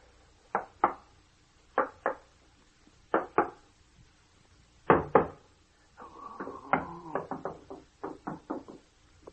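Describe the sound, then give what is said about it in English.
Knuckles rapping on a wall to find a hollow spot: sharp wooden knocks come in pairs separated by pauses, then a quicker run of several knocks near the end. “Keep your ears open. And listen for any hollow sounds.”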